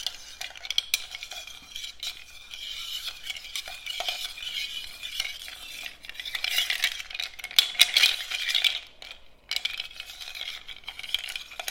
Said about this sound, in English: We're just going to stick the bar spoon in and stir it round.